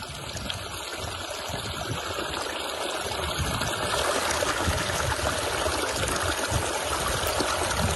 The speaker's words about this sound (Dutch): Dit is het geluid van de leegstromende kwelder op het Groningse Wad. Twee keer per dag stroomt het gebied vol om bij eb weer leeg te stromen.